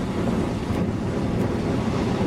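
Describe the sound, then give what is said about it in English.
Ocean waves and gusty, stiff wind make a steady, loud roar of surf with a deep rumbling low end and no voices. “Here's some more wave action. It's really quite gusty right now. It's a good stiff wind blowing.”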